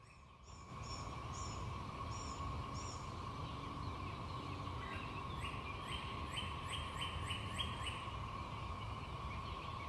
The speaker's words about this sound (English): Hear that hum in the background behind the birds, that constant noise? That's the cicadas.